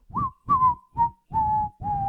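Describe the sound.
A person whistles a short tune of five sustained notes, the melody stepping gradually lower in pitch, clear and moderately loud over breathy low noise.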